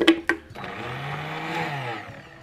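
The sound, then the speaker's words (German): A blender purées carrot, onion and seaweed. Two sharp knocks come first, then a steady, moderately loud whirring drone runs on alone. “Eine Möhre, etwas Zwiebel. Und die Algen zusammen püriert.”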